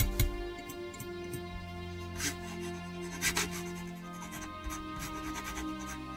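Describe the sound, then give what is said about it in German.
A pen scratching on paper as a birthday letter is written, with faint, irregular strokes over a steady low hum. “Kurz zuvor schreibt Bismarck seinem 14-jährigen Sohn einen Geburtstagsbrief.”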